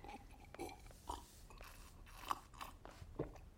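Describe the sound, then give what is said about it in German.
Faint crunching and chewing as someone eats bread and biscuits, washing them down with chamomile tea; a handful of soft, dry bites spread unevenly, with no voices. “Sie weint, isst, weint, spült Brot und Kekse mit Kamillentee und Tränen runter.”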